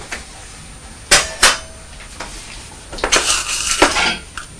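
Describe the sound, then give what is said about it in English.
Clanking of metal pots being dried and put away, with two sharp clanks early on followed by a longer burst of clattering metal contact; no voices. “dry these pots. And put them away.”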